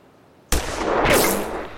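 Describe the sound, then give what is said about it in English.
A single rifle shot during shooting practice: a sharp, loud crack breaks a quiet background, then a broad rumbling decay lingers for more than a second. “Now, raise the end up of the rifle just a little bit and put that black sight post right in the middle.”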